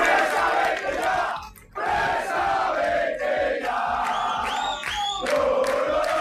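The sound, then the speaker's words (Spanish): Rayo fans protesting at their stadium in Vallecas: a loud, dense crowd of shouting and chanting voices, sustained throughout apart from one brief dip in volume near the start. “Las protestas de la afición del Rayo, concentrada ayer en el estadio”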